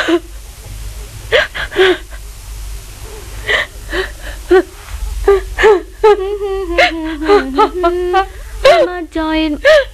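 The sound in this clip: An elderly woman cries as she remembers old times, with shaky, gasping sobs that turn into long, wavering, high-pitched wails. The wails grow more sustained and louder toward the end.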